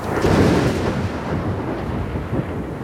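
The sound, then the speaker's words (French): Thunder from a lightning strike about 1.5 km away, near a pool: a deep, loud rumble that swells early and keeps growling steadily for about three seconds. “Il y a eu 4 secondes entre l'éclair et le tonnerre”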